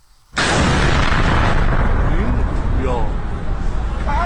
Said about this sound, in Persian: یه پهپاد بود، درسته؟ این صدای انفجاری بود که شنبه 8 بهمن کمی قبل از نیمه شب در اصفهان شنیده شد.